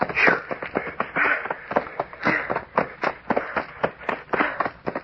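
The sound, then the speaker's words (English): Running footsteps crunch through knee-deep dry leaves in the dark: a rapid, uneven series of many loud rustling bursts with no talk. “Running through leaves up to my knees. We'll be through them in a minute. I feel like I was trying to run on inner spring mattresses.”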